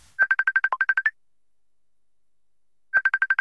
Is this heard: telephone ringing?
yes